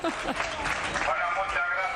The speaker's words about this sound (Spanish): Bueno, fueron aplaudidos.